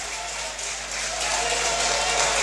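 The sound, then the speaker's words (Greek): A football stadium crowd applauds a young goalkeeper coming on as a substitute for Aris against Levadiakos. The steady applause swells and grows louder toward the end. “Ο Καράη παίρνει και το χειροκρότημα τον κόσμο έτσι για, για ψυχολογία έτσι ο νεαρός goalkeeper.”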